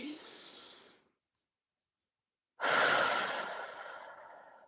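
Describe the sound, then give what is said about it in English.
A deep breath is drawn in through the nose and then let out through the mouth: a soft airy inhale, a pause of silence, then a longer, louder, rushing exhale that slowly fades. “take a deep breath through the nose and then out through the mouth.”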